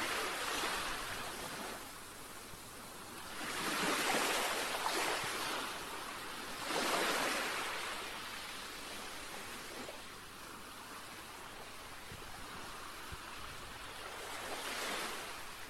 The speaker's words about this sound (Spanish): Otros, sin dudarlo, te dirán que su sonido favorito es el de las olas del mar.